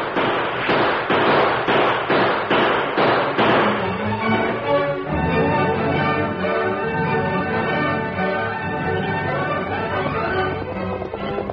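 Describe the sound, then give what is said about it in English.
Gunfire as a drama sound effect, the Lone Ranger and Tonto opening fire on outlaws: a rapid, loud, evenly spaced string of shots, followed by sustained music. “As the Lone Ranger and Tonto opened fire, the outlaws drew rein sharply”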